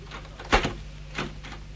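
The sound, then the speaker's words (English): Opening of a trunk: a sharp clunk like a latch releasing, then a softer click about half a second later, both faint. “The trunk, get it open!”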